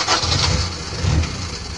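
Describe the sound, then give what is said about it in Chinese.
An old car engine starts and runs with a steady, rough mechanical rumble that stays loud and even throughout, with no voices. “哎，听着这个音效，你就能猜得出来，老司机开了一辆老破车”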